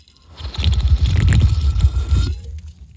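Close-up wet swallowing and gulping as someone drinks water, a steady run of soft squishy mouth sounds for about two seconds, with no talk.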